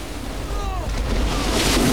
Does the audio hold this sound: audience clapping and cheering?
no

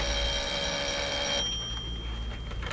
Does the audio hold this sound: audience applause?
no

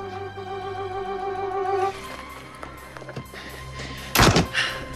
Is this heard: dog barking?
no

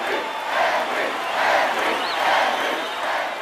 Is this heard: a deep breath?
no

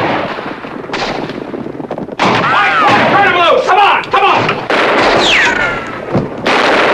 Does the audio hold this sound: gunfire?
yes

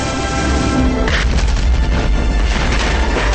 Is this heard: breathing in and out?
no

